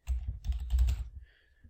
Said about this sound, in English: I'm going to type canoeing and kayaking.